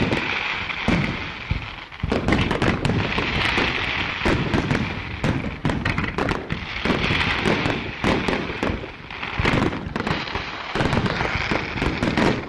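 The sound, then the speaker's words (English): Fireworks finale with an American flag set piece sizzling out colored fire and smoke while mortars launch a last volley of aerial salutes. Dense, continuous crackling and sharp booms layer on one another for the whole stretch with no voices. “the final frame piece was the American flag, sizzling forth its red, white, and blue fire and smoke, and the mortar operators launched a final deafening volley of aerial salutes.”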